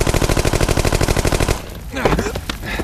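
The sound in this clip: Automatic gunfire in a pachinko arcade: a loud, rapid burst of many evenly spaced shots that stops abruptly halfway through, leaving quieter sounds and what may be a voice.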